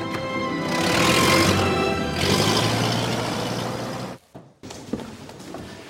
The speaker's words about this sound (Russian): потом садится в машину, уезжает.